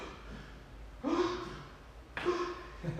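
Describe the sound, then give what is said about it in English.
Two quick, breathy Visarga breaths taken before yoga chanting. Each is a short, hissing rush of air, quiet and set apart by about a second of near-silence. “I do this sound of, I tell you, I always take this breath. So that breath sound, Visarga, is always going through the whole lines of sequence of”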